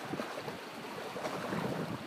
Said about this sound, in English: cold out today. It was fine until the wind started blowing.